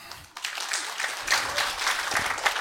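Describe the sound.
An audience claps to welcome a speaker onto the stage for a talk on generative art, producing a short burst of dense, steady applause that swells slightly and continues to the end.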